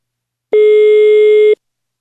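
Telephone tone as a call is placed: one steady mid-pitched beep about a second long, loud and alone, with silence before and after.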